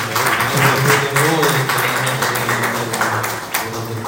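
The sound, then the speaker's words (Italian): Applause at a wine tasting, a burst of loud clapping mixed with voices that carries on for several seconds before thinning slightly. “Io sinceramente, se mi permettete, farei anche un applauso ad Andrea Gori,”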